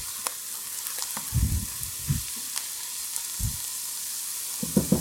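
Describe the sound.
Soft sizzling in a frying pan as half and half cream is added and stirred, with a few louder scraping bursts from stirring over a quiet, hissing background.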